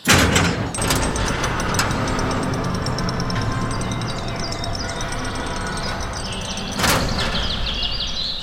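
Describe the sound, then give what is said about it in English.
Gates being opened: a loud mechanical sliding rumble that begins with a hard clunk, runs steadily, then swells again near the end. “They will open the gates for you. Now.”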